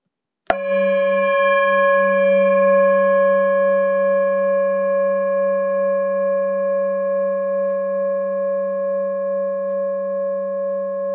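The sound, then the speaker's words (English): A singing bowl struck once, then ringing alone in a steady sustained tone with layered bright overtones and a gentle pulsing waver in loudness as it slowly decays. “So here's my singing bowl.”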